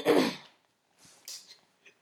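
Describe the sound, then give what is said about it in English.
A burp after drinking ginger ale: a short, low voiced belch at the start, followed by a few faint breathy sounds. “excuse me. I had ginger ale. I'm just feeling really burpy-ish. I'm sorry. It was delicious.”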